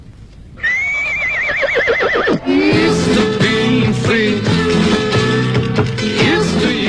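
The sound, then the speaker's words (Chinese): A horse whinnies loudly with a wavering, shaking pitch as its rider leaves alone, then a long run of steady, rhythmic hoof clip-clops follows. “皮亚哥骑上他的马独自走了”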